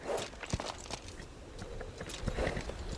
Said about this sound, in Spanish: Rhea se balancea arriba y abajo en su silla mientras cabalga y mira fijamente hacia adelante. Ella reduce la velocidad a un trote, y luego se detiene ante una figura encapuchada